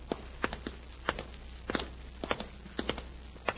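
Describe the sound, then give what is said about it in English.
Footsteps walk down a hotel hallway after stepping out of an elevator: a steady run of soft, evenly paced steps with no talking. “They step out of the elevator and walk down the hall.”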